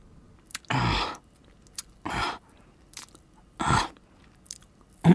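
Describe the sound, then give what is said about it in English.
Wet licking and mouth sounds in close-up ASMR as a character licks behind the listener's ear, soft smacking bursts repeated a few times with quiet pauses between. “I'm just licking behind your ear.”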